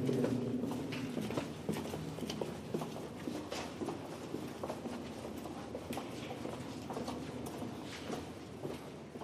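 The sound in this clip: Footsteps descend a damp, humid path: a faint, steady run of soft, irregular steps over low background noise.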